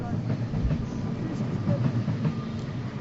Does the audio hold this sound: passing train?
yes